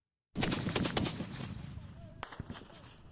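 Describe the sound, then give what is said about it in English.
Heavy battlefield fire from Libyan government tanks and rockets turning back a rebel assault on the road to Sirte: a loud, sudden burst of many sharp cracks and booms fades into a rumbling tail, with a few more sharp shots near the end. “Libyan government tanks and rockets turning back a rebel assault.”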